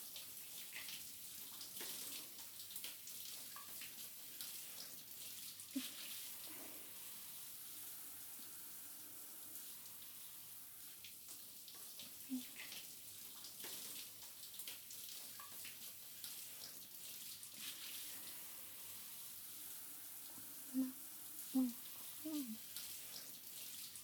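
Water runs while hair is rinsed at a salon, a faint, steady hiss with soft irregular splashes throughout.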